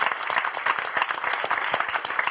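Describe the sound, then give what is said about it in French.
Audience applause for the crew of a live-streamed show, a loud, busy clatter of many hands with a quick, fluttering rhythm throughout. “On peut les applaudir.”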